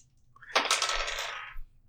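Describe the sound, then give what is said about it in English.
Dice rattle and tumble during a tabletop roleplaying game luck roll: a single burst of crisp clicking and clattering that lasts about a second, then stops abruptly. “Better have hot dice tonight.”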